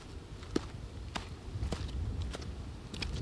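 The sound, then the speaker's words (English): Soft footsteps descend stone steps into a valley, a few faint scuffing treads in an uneven rhythm over low outdoor rumble. “Rejuvenated, I make my way down the stone steps into the valley.”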